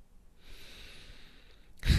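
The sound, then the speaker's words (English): A deep breath in and out during a guided relaxation exercise: a soft, airy breath sound lasting over a second, ending in a sudden louder, breathy burst. “take a deep breath”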